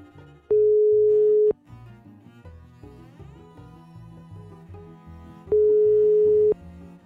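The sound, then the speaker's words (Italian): Two long, steady telephone ring tones sound while a call is being placed, each lasting about a second and separated by several seconds of background music. The beeps are loud and identical in pitch. “Lo chiamiamo, aspetta.”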